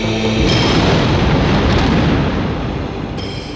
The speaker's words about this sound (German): Ein Wintergewitter in seiner ganzen besinnungslosen Wut raste über die Stadt hinweg. Kanonenschüsse von der Moldau her.